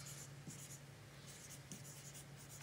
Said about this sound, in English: I'm going to misspell something writing this fast.